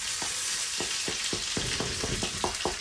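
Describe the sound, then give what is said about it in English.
Chili and roasted red peppers sizzle as they fry in a pan. A steady, bright hiss runs throughout, broken by many regular stirring scrapes, and nobody speaks. “some chili here and some roasted red peppers that we're going to just slide into the pan in the same way”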